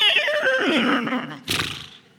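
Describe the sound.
A person imitates a horse neigh with a shaky, wavering whinny that slides downward, followed by a short breathy burst near the end.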